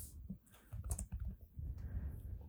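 Typing on a computer keyboard: a quick, irregular run of key clicks in short bursts with brief pauses, fairly quiet and with no talk.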